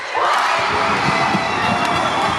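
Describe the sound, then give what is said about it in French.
Basketball supporters cheer loudly in a gym after a tense match, a sustained roar of whoops and shouts that erupts quickly and stays at full strength throughout. “Bah, c'était fort en suspense, il y avait beaucoup de supporters, il y avait beaucoup de bruit.”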